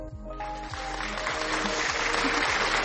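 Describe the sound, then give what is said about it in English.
Applause from a crowd thanking listeners: a dense, steady wash of clapping that builds in over the first moment and holds, with low rhythmic thumping beneath it. “a round of applause for you all once more, because I feel like the first one was not enough”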